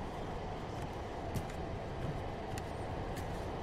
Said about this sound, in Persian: قطار مترو.